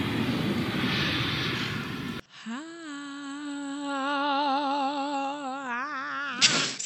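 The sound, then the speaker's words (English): An airplane takeoff sound effect opens with about two seconds of broad, hissing roar, then cuts to a droning engine tone with wavering overtones that holds steadily for several seconds before trailing off. “Listeners, prepare for takeoff.”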